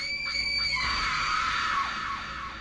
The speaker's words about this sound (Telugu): ఆ నొప్పి ఆ రూపాన్ని చూసి తట్టుకోలేక భయంతో అరిచింది